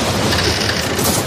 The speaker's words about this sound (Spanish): La tormenta Juana destrozando tu antena suena así.